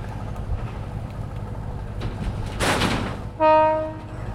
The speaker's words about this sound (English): As we hear the ferry departing